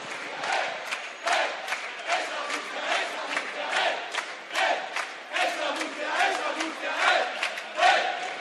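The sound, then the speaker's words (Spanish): Crowd chanting and cheering at the opening of the Apple Store in Murcia: many voices shout rhythmic, pulsing chants in loud, steady bursts that rise and fall throughout. “Ya están saliendo y empiezan a jalear al público asistente que poco a poco se va calentando y participando de estos cantos.”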